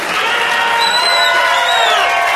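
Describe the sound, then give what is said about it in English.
Applause and cheering from a crowd played from a CD, a dense steady wash of clapping with whoops and shouts layered on top, loud and continuous throughout. “Get some applause on that CD.”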